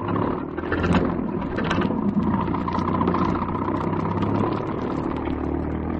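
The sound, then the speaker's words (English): A taxi cab engine runs while the cab drives, a steady low-to-mid rumble that holds even throughout, with no voices. “Drive past that cab and turn at the next corner. Then slow down for a moment.”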